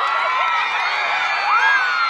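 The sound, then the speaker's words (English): A roadside crowd cheers on the highway outside León airport as Pope Benedict XVI passes in his glass-sided popemobile. Excited shouts and whoops blend into a steady roar, with one bright rising whoop near the end. “Crowds of people dressed in white and waving yellow flags lined the highway outside the León airport to welcome Pope Benedict XVI, and they cheered wildly when the grinning 84-year-old pontiff sped past in his glass-sided Pope-mobile.”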